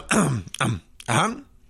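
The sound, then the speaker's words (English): A voice imitates a cough from a medium-sized, reddish-tinted gelt: three rough, throaty bursts, like a harsh clearing of the throat, with short gaps between them. “And from behind you, there is kind of a cough from a medium-sized, reddish-tinted gelt.”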